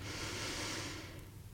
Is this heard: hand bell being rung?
no

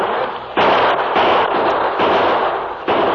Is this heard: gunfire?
yes

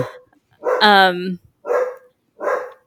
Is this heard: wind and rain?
no

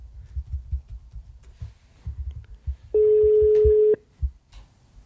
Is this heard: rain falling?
no

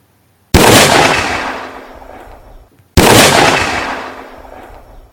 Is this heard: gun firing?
yes

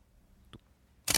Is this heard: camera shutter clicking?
yes

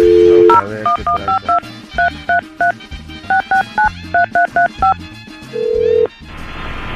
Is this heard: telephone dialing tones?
yes

